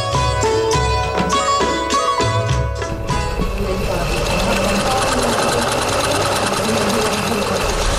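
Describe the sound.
A sewing machine stitches. A few separate runs of rhythmic clattering give way to a steady, fast, buzzing whir that carries on loudly to the end.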